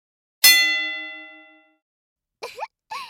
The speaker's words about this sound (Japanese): ゴングは勝負の始まりですよ。